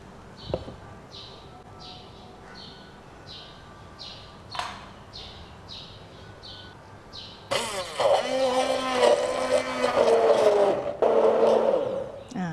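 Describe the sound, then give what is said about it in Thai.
Electric blender whirring as it blends apples with apple juice, its motor starting loud and steady after a quieter stretch with a few faint knocks, then breaking off briefly before resuming near the end. “ใส่น้ำแอปเปิ้ลนะอันนี้เราจะใช้เป็นแอปเปิ้ลกล่องหรือแอปเปิ้ลขวดก็ได้นะลงไปนะเดี๋ยวเราจะปั่น”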